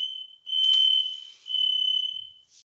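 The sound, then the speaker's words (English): A smoke detector emits a shrill, high-pitched electronic tone in a few long pulses that swell and dip, with a brief higher blip at the end. The tone is faint and heard alone. “No, it's your smoke detector. Yeah, I think that was my smoke alarm. Yeah, the battery maybe needs replacing.”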